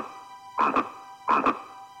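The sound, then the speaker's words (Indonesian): A frog croaks while held in a snake's mouth, giving two short croaks that each split into a quick double pulse, over a steady background tone. “Pangeran Lundu pun mencari sumber suara itu. Betapa terkejutnya, Pangeran Lundu menemukan seekor katak berada di mulut seekor ular.”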